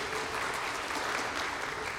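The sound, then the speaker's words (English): Audience applause rings out in a dense, steady wash of clapping that holds at an even loudness from start to finish, with no break or clear individual claps. “And we applaud Kim's courage, right?”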